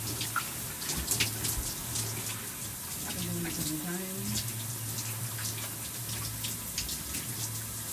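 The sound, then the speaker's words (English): Tap water runs steadily, a bright splashing hiss that continues through the whole clip while the flow is adjusted, with scattered drips and spatters on top. “I kind of adjust the water.”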